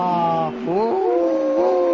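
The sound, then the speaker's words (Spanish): Wolves howling, several long overlapping tonal howls that slide and bend in pitch, with a brief dip before the voices rise again and hold steadily to the end. “Aparecen los lobos.”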